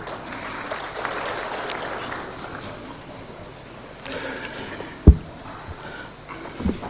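Audience applause at an official Tanzanian state gathering: a steady, moderate wash of clapping from a crowd, with a couple of sharp louder claps near the end.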